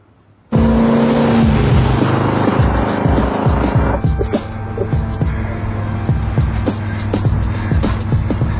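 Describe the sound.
A car drives with a loud, steady engine drone that starts abruptly and holds at a constant, heavy level throughout, with no talking.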